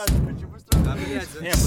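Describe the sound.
Knocking on a door comes as a few loud, heavy thumps over a man's talking voice.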